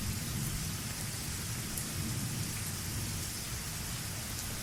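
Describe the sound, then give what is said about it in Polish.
Thunderstorm with steady, dense rain and low rolling thunder rumbling beneath it, continuous and even throughout with no voices. “Cały czas grzmi. Jakby burza się dopiero rozkręcała.”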